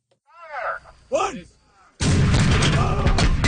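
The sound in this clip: A howitzer fires during an Army Reserve training exercise, a sudden loud blast that holds as a broad, sustained roar, coming after a brief voice.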